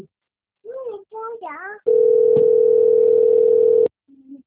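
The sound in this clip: Telephone line tone of an outgoing phone call: one loud, steady, unbroken tone lasting about two seconds, preceded by a few short voiced sounds and followed by a brief quieter one.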